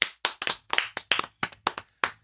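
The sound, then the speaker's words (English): Sharp, distinct hand claps from an audience in an irregular rhythm, about ten crisp slaps with short gaps between them. “I think that it was amazing and she deserves claps.”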